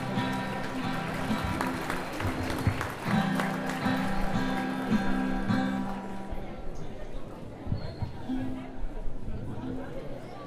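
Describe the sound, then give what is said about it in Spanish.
Applause from an audience at an anniversary gathering and international support-network meeting: dense, steady clapping mixed with crowd chatter and voices, thinning out after about six seconds into quieter murmuring. “Rendemos un fuerte aplauso, compañeros.”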